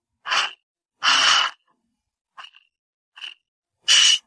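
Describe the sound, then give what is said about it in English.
Three-part breath demonstrated in a breathwork exercise, drawing into the belly, then the heart area, then exhaling. Short, airy breath sounds are separated by silence, some soft and others louder. “three-part breath, and that's where you breathe into the belly, into the heart, and then you exhale. So that's like this.”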